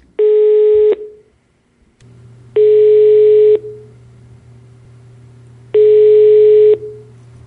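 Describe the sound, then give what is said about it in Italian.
Telephone ringback tone on an outgoing call to a person in Ascona, placed for a phone interview: three evenly spaced steady beeps, each about a second long, separated by long gaps with a low steady hum underneath. “Ti chiamo Marisa perché sai che sto facendo delle interviste telefoniche”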